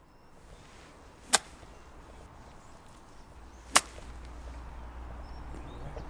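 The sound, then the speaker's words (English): Golf club chipping balls in a back garden: two crisp, sharp strikes, well apart, each a sudden snap that stands out against a faint, steady outdoor background. “We also made Joe chip a few balls for us in his back garden to show us his golf game”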